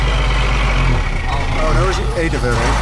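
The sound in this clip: A truck's engine rumbles steadily on the road, a low continuous drone with people talking over it.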